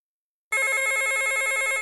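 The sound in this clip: An office telephone ringing for an incoming call: a single bright, warbling electronic trill lasting over a second, starting abruptly after a short silence and stopping cleanly.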